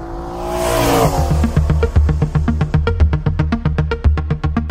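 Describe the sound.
A Nissan 300ZX Twin Turbo engine accelerating on a race circuit, a loud, continuous engine roar that turns into a fast, even, rhythmic pulsing as it pulls.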